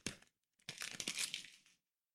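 Paper crinkling and tearing as a gift box containing a mug is unwrapped: a brief crackle, a short pause, then a longer stretch of faint rustling and crumpling.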